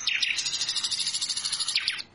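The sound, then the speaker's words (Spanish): Nightingale song: a quick run of bright, high chirps and trills, repeated steadily for about two seconds before stopping abruptly. “Este cantor nato es el ruiseñor. Mira qué lindo que canta.”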